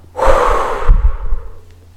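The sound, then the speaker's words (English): A single long, forceful exhale during a guided countdown exercise. The breath is loud, airy and breathy, lasts under a second, and trails off into softer low rumbles. “Exhale.”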